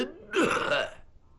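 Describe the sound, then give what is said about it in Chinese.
A storyteller imitates a single cough: one short, rough, throaty burst, close to a throat-clear, loud and on its own with no words around it. “陶福安那人稳当，手托着白壶，先咳嗽了一声”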